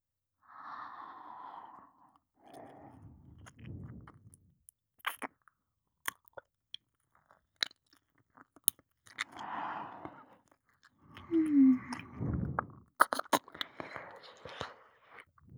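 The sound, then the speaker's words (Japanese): Wet ASMR ear-licking sounds: quiet, intermittent slurps, smacks and sharp little clicks with soft breaths between them, coming in scattered clusters with silent gaps. “耳を舐めてほしい？わかった。”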